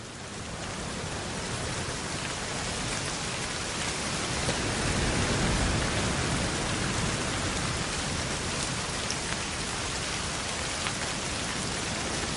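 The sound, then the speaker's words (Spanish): Rain falls outdoors, a dense and steady hiss at even loudness throughout with no distinct drops standing out. “Fuera, Cristian camina nervioso bajo la lluvia.”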